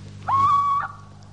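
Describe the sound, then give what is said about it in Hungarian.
A little owl screeching at night as a radio drama sound effect: one clear, whistle-like note that lifts slightly at the start, then holds steady for about half a second over a faint low hum. “Csak a kuvik, a gyászos őr rikoltott szörnyű jó éjszakát.”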